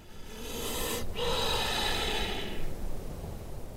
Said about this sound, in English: Snakes breathe. They have lungs. Of course they do, but I never thought I'd hear it. His body inflates as he takes another deep breath.